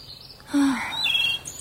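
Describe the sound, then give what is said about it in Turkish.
Birds sing outdoors in green countryside under a clear sky: a short run of a few high chirps and one lower whistle, heard alone. “Sanki kuşlar bile burada daha bir farklı ötüyor.”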